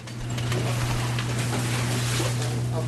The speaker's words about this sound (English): That's the sound of dock workers in Gloucester Harbor unloading a fresh boatload of haddock, a prize fish in the country's oldest fishing port.